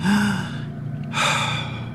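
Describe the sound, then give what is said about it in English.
A deep breath drawn by a teddy bear character: two long, breathy rushes of air separated by a short pause, fairly loud and heard alone without speech. “Thomas the Teddy took a deep breath.”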